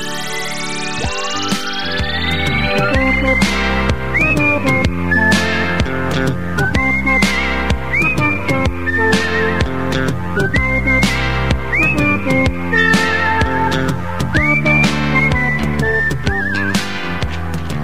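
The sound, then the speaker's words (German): The title theme of an early-1980s radio drama series is whistled as a bright, bouncy melody over rhythmic music with regular sharp beats. It opens with a rising sweep and continues loud and steady. “Das ist sie, die Titelsequenz der Anfang der 80er Jahre erschienenen Hörspielreihe Die Funkfüchse.”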